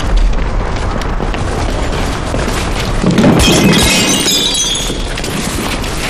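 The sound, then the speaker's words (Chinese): A commander's prized possession smashing: a loud shattering crash with a burst of clattering, breaking debris partway through, over constant heavy rumbling noise. “看你们把严长官的宝贝摔坏了，你们赔得起吗？”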